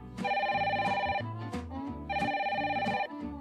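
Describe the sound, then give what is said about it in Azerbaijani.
A telephone bell rings loudly in two long bursts of about a second each, separated by a short pause, with a bright, steady trill and no talk over it. “Yola düşdüyü an telefon zəng çalır.”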